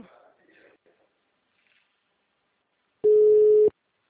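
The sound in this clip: A single ring tone on an outgoing telephone call: one steady, mid-pitched electronic beep lasting under a second, following a brief, faint voice and a stretch of silence.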